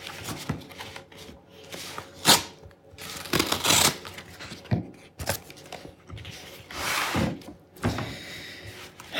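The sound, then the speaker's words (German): Paper being cut open on the 20th page of a puzzle calendar, a series of soft rasping, scraping bursts of uneven length, faint and with pauses between them. “Also, ich schneide mal die 20. Seite auf.”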